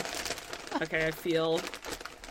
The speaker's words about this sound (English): You wrapped it in actual wrapping paper? I only do that during the holidays.